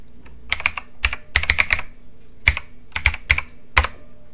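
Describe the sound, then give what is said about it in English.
Typing on a computer keyboard: many sharp key clicks arrive in irregular bursts and short clusters, moderately loud and alone, with no talk. “Let's type this up, see what's going on in the Twitter sphere.”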